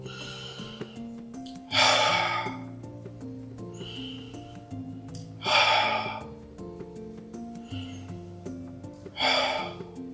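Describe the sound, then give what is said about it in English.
Deep breaths during a guided calming exercise, drawn in through the nose and let out through the mouth: three strong, airy exhales at a steady, slow pace with fainter inhales between, over soft sustained background music. “You will take 3 deep breaths, inhale through your nose and exhale through your mouth, like this.”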